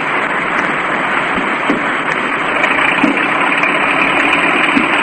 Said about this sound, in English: And, well, here's the car.